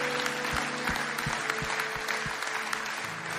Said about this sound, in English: Can we just put our hands together and welcome people into the family of God today?